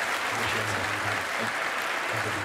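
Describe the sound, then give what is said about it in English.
An audience applauds at a school award ceremony, with a continuous, dense wash of clapping at a constant level over a low hum. “Kyle reluctantly joins in the applause. Congratulations, Archie.”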